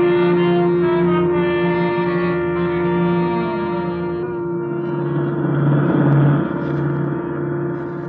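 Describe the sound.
Engine drone of a car driving through city streets before pulling up to a curb: a steady, loud, low hum with strong harmonics, its tone shifting slightly about halfway through.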